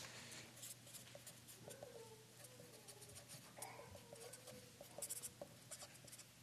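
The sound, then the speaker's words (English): Pen or pencil scratching across paper as someone writes something down by hand, a faint, continuous run of dry, scratchy strokes with small breaks between them. “Do I need to write that down? Probably don't, but I will.”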